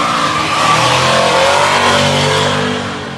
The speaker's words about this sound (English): I gotta tell you, they just ran a GTR. That thing scoots, man. Gosh. That thing is quick. That all-wheel drive.